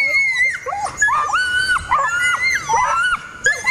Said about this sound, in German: Dann haben die sogenannten Tollerschrei und der ist eben sehr laut, sehr schrill, geht gefühlt durch Mark und Bein.